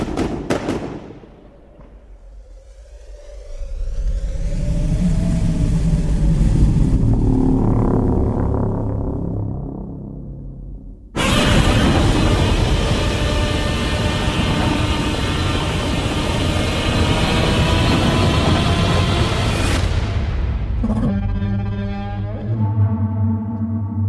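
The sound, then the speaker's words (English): Trailer audio from the Godzilla movie: a low, swelling roar with a wavering tone builds for several seconds, cuts off abruptly into a loud, dense blast, then gives way to pulsing tonal notes. “Excerpt from the trailer to the movie, much awaited movie, by the way, Godzilla.”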